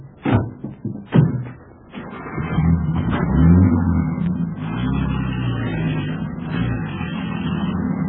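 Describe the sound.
Car doors slam shut, a few sharp thuds in the first second, then the car's engine starts and settles into a steady running drone as it drives off.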